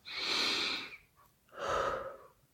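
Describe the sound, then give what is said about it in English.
A deep breath taken slowly in a calm guided moment: two long, airy whooshes of about a second each, separated by a short pause, with no talk over them. “let's just take a collective deep breath”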